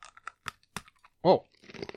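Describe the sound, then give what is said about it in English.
A crunchy tropical punch flavored snack, hard as glass, is chewed in several crisp, sharp crunches, each short and separated by silence. A brief voiced sound follows, then a quicker run of crunching. “Hearing a crunch. Yeah, no kidding. I'm basically chewing glass.”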